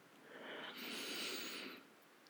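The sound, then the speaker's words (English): A deep breath, soft and airy, drawn in and let out over about two seconds with a brief dip midway, quiet and without talk. “I want to take a deep breath.”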